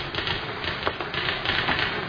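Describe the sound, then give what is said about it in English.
Typing on a typewriter as someone writes a bad review, a steady rapid patter of key clacks over a constant dense noise with no talk. “He's writing a bad notice.”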